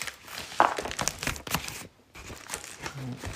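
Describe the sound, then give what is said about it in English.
Crinkling and tearing as a blade cuts open a bubble-wrapped envelope holding a secondhand eBay parcel, with a sharp crackle near the start and uneven rustling after it. “It's in a bubble-wrapped envelope. It's not much leeway. I'm going to have to cut the envelope.”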